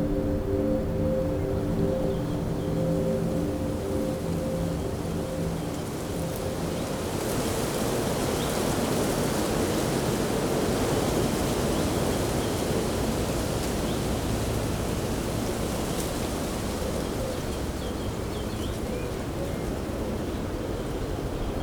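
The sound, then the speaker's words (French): A sea breeze blows through coastal oak forest as a steady, even whoosh of broad noise that lasts throughout. A low hum sits underneath during the first several seconds. “Le balai de la brise marine se marie si bien avec ses forêts.”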